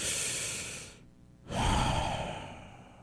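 Deep breaths: two long, airy breaths separated by a short pause, the second fuller and louder before it slowly fades. No one speaks.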